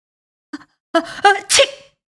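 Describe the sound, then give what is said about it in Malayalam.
A man sneezes while watching a play in a theatre: a faint breath, then gasping vocal build-ups, ending in one loud, hissing burst that trails off, heard alone. “ഒരന്താളിപ്പിനിടയിൽ അയാൾ അറിയാതെ തുമ്മിപ്പോയി”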